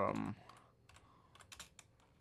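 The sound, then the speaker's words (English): Song names being typed on a computer keyboard: a brief loud burst at the start gives way to a few quiet, irregular keystroke clicks. “Just typing them in right now.”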